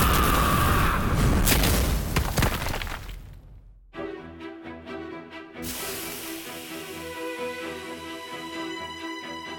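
A magic fire bolt spell being cast bursts out as a loud roaring blast with crackling hiss for a few seconds. It drops away into a quieter, steady, ringing tonal sound.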